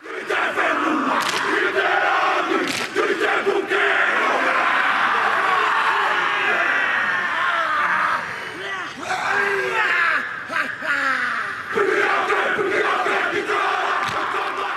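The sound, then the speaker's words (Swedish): A rugby national team performing a haka war dance before a match, with loud rhythmic massed shouting and sharp cries that are sustained throughout, a brief dip partway, then a rise back to full force. “Dansen lever kvar, inte minst genom att rugbylandslaget genomför en sån dans inför varje match som vi hör här.”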